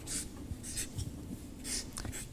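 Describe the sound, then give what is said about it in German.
Handwriting with a pen: a few faint, brief scratching strokes spaced unevenly over a soft background. “schreibe noch kurz zu Ende”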